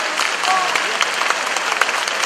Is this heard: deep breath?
no